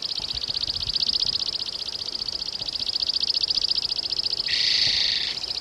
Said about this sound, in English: Chipping sparrow singing.